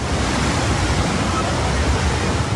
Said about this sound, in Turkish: Burası Ayazağ yolu. Normal şartlarda araçların geçtiği bir yol. Ancak şiddetli yağışın etkisiyle adeta göle dönmüş durumda.